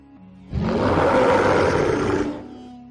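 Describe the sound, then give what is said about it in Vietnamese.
A wild beast roars in the desert night: one loud, deep, rough roar that swells suddenly, holds for about two seconds with no other sound, then fades. “Tiếng dã thú gầm vang càng hiệu thê lương”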